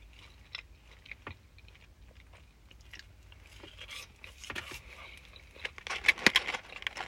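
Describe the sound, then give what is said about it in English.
Quiet chewing of McDonald's food, with many soft, crunchy bites and mouth clicks in an uneven rhythm that grow louder and denser toward the end. “Why am I eating McDonald's? This is delicious.”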